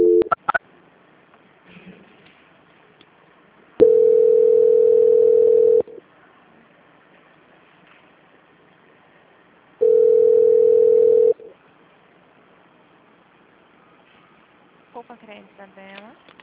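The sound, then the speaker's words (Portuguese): A steady telephone tone plays during a call transfer, in two long, even hums of about two seconds each with quiet gaps between. Brief voices are heard at the start and the end. “Vou transferir de novo, só um momento, por favor.”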